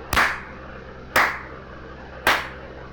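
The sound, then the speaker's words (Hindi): A slow clap: three sharp, evenly spaced hand claps about a second apart, each ringing out briefly before the next, with no other sound. “I wish I could slow clap हाँ सही है slow clap”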